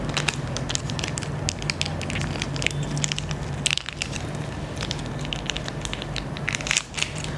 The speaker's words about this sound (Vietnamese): bây giờ mình khui một cái bao cao su mới nè bạn chú ý nha mình khui một cái bao cao su mới